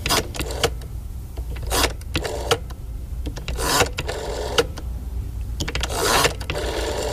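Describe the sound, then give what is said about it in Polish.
An old rotary telephone dial is turned and released several times. Each release spins back with a short, rapid whirring ratchet, and quieter gaps separate the returns. “I tę tarczę numeryczną, uwaga, najmłodsi słuchacze powinni teraz zrobić głośniej, bo może już nie pamiętają, co to jest, a to brzmi tak.”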